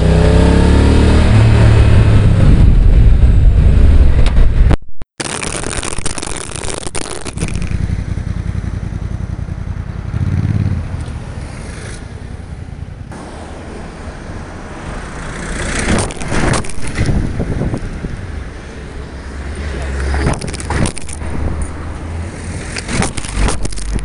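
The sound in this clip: Several cars drive over a dropped mobile phone lying on the ground. A loud, staticky rumble is followed by a brief cutout, then repeated surges of engine and tyre noise that rise and fall, with no talk.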